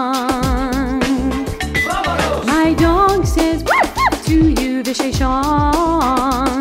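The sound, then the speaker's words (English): A dog howls and yips over music, with short rising howls standing out in the middle among quicker yelps. “My dog says, awoo!”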